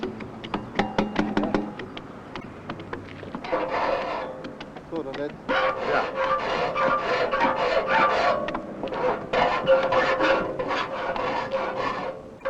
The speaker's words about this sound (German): Wenn im zweiten Durchgang die Schneidekanten der links geschränkten Zähne nachgezogen werden sollen, muss man die Säge herumdrehen.